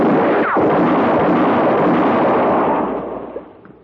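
A single loud gunshot in a western standoff near a well, heard as a broad roaring blast that holds for about three seconds before fading away, with no talk over it.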